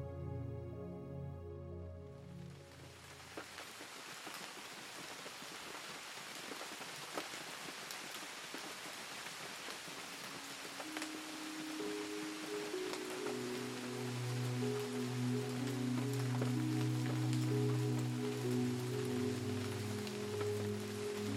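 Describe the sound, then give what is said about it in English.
Rain falls outside a window, a soft, steady patter with scattered droplet ticks that continues without pause and swells slightly over time. “Sitting by her window on a rainy day.”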